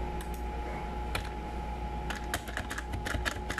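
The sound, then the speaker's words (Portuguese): Faint computer clicks from a mouse during an online lesson, several light taps scattered over a steady low hum, with no talking. “vou clicar aqui.”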